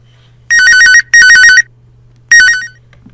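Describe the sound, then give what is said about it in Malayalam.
Telephone ringing with an incoming call: three bursts of a bright, warbling electronic ringtone. The third burst is cut short. A steady low hum runs underneath throughout. “ഗാനതരംഗിണിയിലെ ഇന്നത്തെ ആദ്യത്തെ collar വന്നിട്ടുണ്ട്. നമുക്ക് നോക്കാം ആരാണെന്ന്.”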